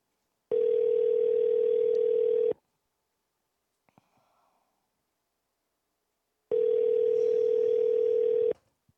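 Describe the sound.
A telephone ringback tone sounds while a call waits to go to voicemail. There are two long, steady, mid-pitched tones, each about two seconds long, with a quiet pause between them.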